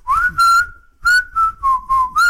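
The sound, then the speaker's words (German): A person whistles a short tune of several clear held notes, opening with an upward glide into a long sustained tone, then a run of shorter notes that dip slightly lower before rising again. The whistling is loud, with no speech. “Na, so kann man auch das Pfeifen wieder üben, oder?”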